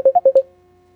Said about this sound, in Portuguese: É a ligação, né?